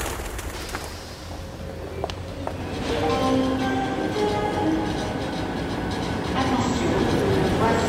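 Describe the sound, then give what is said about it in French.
A high-speed TGV train arrives at a railway station: a broad mechanical rumble with rail clatter, joined by sustained tonal whines that grow louder and more prominent after the first few seconds. “Il est presque 9h du matin et je me trouve gare de l'Est. Je cherche le TGV en provenance de Reims, Charleville, qui va arriver à 9h.”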